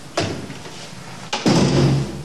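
Someone pushes on a damaged door that will not close, giving two dull thumps about a second apart, the second followed by a longer scraping resonance.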